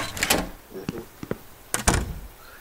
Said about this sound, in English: Door in 2 steps. Here's the door.